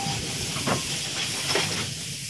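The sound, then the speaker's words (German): A steam train hissing at a railway station platform at Charing Cross in London: a loud, continuous broad rush of steam with faint tonal whines drifting through it, and no voices. “In weniger als einer Stunde wurde sie nach London geschleudert und stand dort, recht verloren, auf dem Bahnsteig von Charing Cross.”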